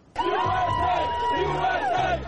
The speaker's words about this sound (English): In cities across the country, they cheered on the U.S. team against Germany.